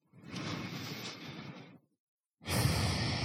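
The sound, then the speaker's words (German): Deep, slow breathing during a guided relaxation exercise: one long, airy breath of about two seconds, a brief silence, then another breath begins, soft and unhurried with no talking. “Nimm noch 2, 3 Atemzüge so.”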